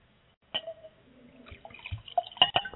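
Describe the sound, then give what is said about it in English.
Canon Ridge Chardonnay wine pouring into a glass makes faint, uneven trickling and dripping, with a soft splash at the start and busier gurgling splashes toward the end. “I love the sound of wine pouring.”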